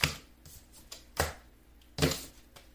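Tarot cards shuffle and spill out of the deck in quiet dry flicks and ticks, punctuated by three sharper slaps spread unevenly across the moment.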